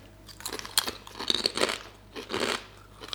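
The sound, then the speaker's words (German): Crunching on hard, extra-crispy potato chips: a run of sharp, brittle crunches in uneven bursts, fairly faint overall, with no talking. “Die sind viel knuspriger als bei uns Chips irgendwie. So härter, knuspriger.”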